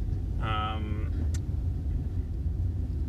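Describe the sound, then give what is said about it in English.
Steady low engine and road rumble inside a car while driving home, an even drone throughout, with a brief voice sound near the start. “where I drive and I talk, and I'm still doing that, but I'm driving on my way home from work and not to work.”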